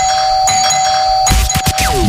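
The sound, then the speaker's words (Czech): A doorbell at a home's front door sounds a sustained ding-dong chime of clear, steady tones, followed by a short burst of louder, irregular noise. “Dneska ráno jsme zvonili jak diví.”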